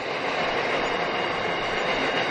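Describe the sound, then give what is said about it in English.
A kilometre-long coal train rolling past in Australia, a steady, continuous rumble with rattling wagon clatter and wheel noise that holds an even loudness throughout, with no voices. “Oh, no, it is a coal train. Wow. She is. It's a, these are kilometre-long coal trains.”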